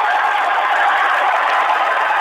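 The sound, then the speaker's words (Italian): A crowd applauds in a town square, a thick, unbroken wash of many hands clapping, loud and even from start to finish with no individual claps or voices standing out. “applaudite, piazza!”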